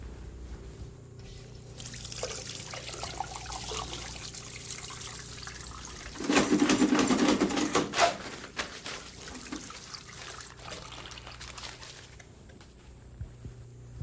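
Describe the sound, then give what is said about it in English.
Hands are washed under running water in a medical setting before gloves go on. A steady trickle and splash continues for about fourteen seconds, growing louder and more broken in the middle as the hands move under the stream. “People always wash their hands in the medical business, don't they? Yes, they do. We have to be very careful about passing them germs from one patient to another. Mm-hmm. So we wash our hands and put the gloves on also.”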